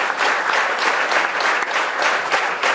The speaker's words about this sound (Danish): hujende bifald her igen til Andreas Brandelit